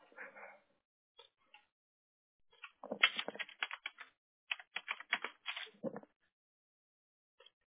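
Computer keyboard typing during a location search comes as short, faint bursts of quick clicks separated by silent pauses.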